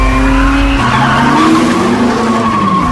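Tires squeal as a car accelerates hard, a loud, continuous high-pitched screech over a steady engine roar for the whole clip.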